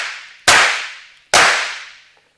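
Two sharp gunshots ring out in a French radio detective drama, fired at a fleeing man. Each is a sudden loud crack followed by a long fading tail, with no voices.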